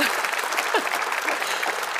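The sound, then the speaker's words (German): A show audience breaks into applause: steady, dense clapping that holds at a constant level for the full two seconds. “Ja, auch der Mensch, da kriege ich sogar, sogar Applaus.”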